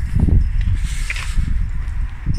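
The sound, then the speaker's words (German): Footsteps outdoors after someone climbs out of a car, a steady run of soft, low scuffing steps carrying on through the whole short stretch at a moderate level. “So, ich habe mal meine Jacke angezogen, bin mal ausgestiegen. Hier mal ein paar Schritte gehen.”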